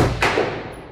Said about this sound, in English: This is the sound of an M4 rifle being fired without TCAPS.